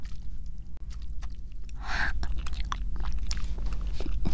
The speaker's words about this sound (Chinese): 鸡腿这么香，我就只好自己吃。 我吃嘛，我吃嘛。